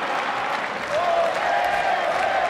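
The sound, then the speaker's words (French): A Roland-Garros tennis crowd applauds in a steady, dense wash of clapping and crowd noise that holds at an even level throughout. “Écoutez le public de Roland-Garros.”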